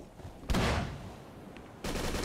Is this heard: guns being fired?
yes